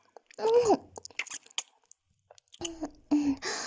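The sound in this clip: Someone chews food in short, moist, squishy bursts separated by pauses, with a couple of brief voiced murmurs among the bites.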